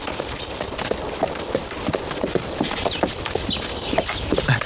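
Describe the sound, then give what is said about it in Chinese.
Hooves clop on the ground as horses are led out of the stable, many uneven hoof falls in a steady walking rhythm. “少将军、少夫人，那个把我爹的坐骑牵过来。是，在这个厩里。哎，牵过来。 把我那小红也牵过去。”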